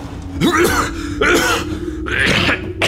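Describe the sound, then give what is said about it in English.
A man choking in a dramatic scene, heard as three bursts of strained, gagging grunts and throat noises over a low steady hum. “What is it? What's wrong? I think he's choking.”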